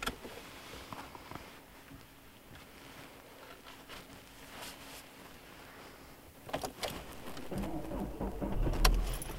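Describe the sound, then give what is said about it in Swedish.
A car engine runs quietly with a low, steady hum as the driver reverses out and drives off. The noise swells into a louder, rougher rumble over the last few seconds. “Nu kör vi vidare. Vägen, så jag ska backa ut härifrån.”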